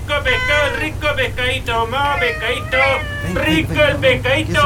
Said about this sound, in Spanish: el gato se está volviendo loco. Sintió el olor a pescado.